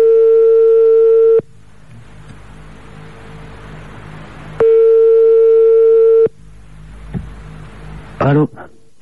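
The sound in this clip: A telephone call rings out as a ringback tone. Two long, steady electronic tones, each over a second, are separated by a pause of low hiss, and a short sharp burst follows near the end.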